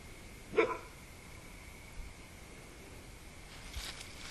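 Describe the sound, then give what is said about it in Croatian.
A dog gives one sharp, brief bark that stands out loudly. Quiet follows, broken only by a few faint, soft noises. “Evo i kako se pas zove Benidi i on priča.”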